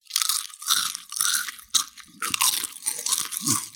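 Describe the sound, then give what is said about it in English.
Potato chips being crunched: several crisp, bright bursts of crackling crunch in quick succession, separated by short pauses, dry and fairly close, with no talk. “Those are my potato chips, but not just any chips.”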